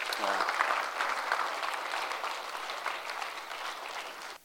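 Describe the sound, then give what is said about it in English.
Applause from a missions conference audience, a dense, steady patter of many hands that eases off gradually and then stops abruptly near the end. “Can we just give him a round of applause and appreciation for”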